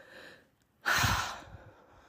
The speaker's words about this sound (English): Like, just take a deep breath.